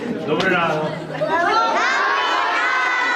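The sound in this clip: Schoolchildren in a Ukrainian classroom cheer and shout as President Zelensky visits on the nationwide first day of school: many high, excited young voices overlap in a loud, continuous burst of cheering and chatter.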